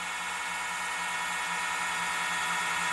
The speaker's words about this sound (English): So it's just echoing into the distance. These are all the dogs starting to bark.